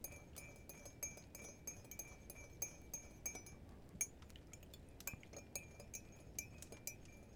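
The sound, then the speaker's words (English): A spoon stirs in a glass, producing a long run of light, rapid clinks in a fairly even rhythm, quiet overall and heard alone without voices. “Are you enjoying stirring it? What are you doing?”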